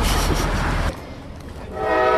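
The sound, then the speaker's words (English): A train roars by on East El Dorado Street with a loud, heavy rumble that drops sharply after about a second, then builds again as a tonal, horn-like sound enters toward the end. “Hey, I'm here with a group of Millikan students as a train roars by”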